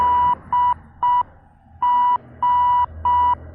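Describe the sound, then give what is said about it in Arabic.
A ship's radio distress signal is received at a lighthouse. Six steady mid-pitched beeps sound over a low hum, with a longer pause after the third. “دي باخرة بتستغيث. رد عليهم يا عبد الحميد، اسألهم هم فين بالظبط.”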